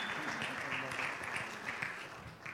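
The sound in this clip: Audience applause welcoming a speaker to the stage at a morning gathering: a steady, dense wash of clapping that holds at an even level throughout.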